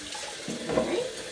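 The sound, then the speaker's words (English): Hands being washed under a running tap in a kitchen, a steady splashing hiss of water that briefly grows fuller and splashier midway. “So, just washing my hand.”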